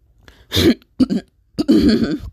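A person coughing and clearing the throat in three loud, rough bursts. The first and last are longer and harsher, with a shorter double rasp between them, and no speech alongside.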